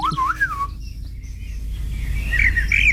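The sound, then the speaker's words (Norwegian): Eurasian blackbird song: a mellow, fluty whistled phrase opens, then after a short gap a higher warbling phrase follows, over a steady low background rumble. “Turdus merula, Turdus eller svarttrost. Merula. Ja. Den ses jo vanligvis i haga, parker og skogsområder, høres ut som dette.”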